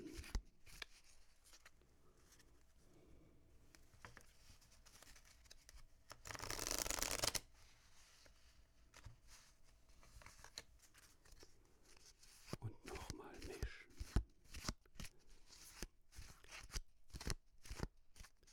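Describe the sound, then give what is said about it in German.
Playing cards shuffled by hand during a card game, with one loud sustained riffling burst in the middle. Soft rustling comes before it, and many crisp, quick flicks and taps follow. “Noch ganz sanft nochmal durch die Hände gleiten beim Mischen.”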